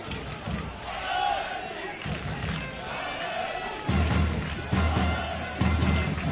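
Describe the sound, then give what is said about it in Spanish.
Sanlúcar de Barrameda football supporters' charanga band plays at a match, with a few heavy drum thumps in the second half over steady crowd noise and under ongoing talk. “Anima la afición. Escuchan ustedes la charanga de los aficionados de Sanlúcar de Barrameda.”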